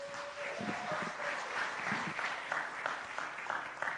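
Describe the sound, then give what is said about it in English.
A church audience applauds its worship team during a Sunday morning service, giving continuous, fairly loud clapping that stays steady throughout, with a faint thin tone running briefly near the start. “can we give it up one time for our worship team here?”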